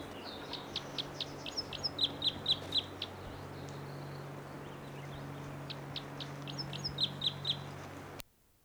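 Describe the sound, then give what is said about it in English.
Chirping calls from a bird in a tree above a camp: quick, high, repeated notes in two bursts of activity over a steady low hum. “Bird's right in the tree above the camp. And this is it.”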